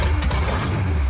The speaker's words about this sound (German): Das ist der Sound von einem amerikanischen Oldtimer, einem 37er Plymouth.